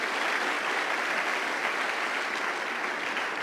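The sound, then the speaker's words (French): Audience applause from an audience at a worship service acclaiming Jesus: a dense, steady wash of many hands clapping, even in loudness throughout, with no clear talk on top. “On acclame Jésus.”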